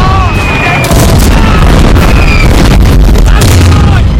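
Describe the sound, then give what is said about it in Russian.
Artillery shells exploding near German bunkers in a wartime film scene: many heavy booms with whistling tones over a dense, very loud roar. “Снаряды, выпускаемые артиллерийскими расчетами, ложатся рядом с немецкими дотами.”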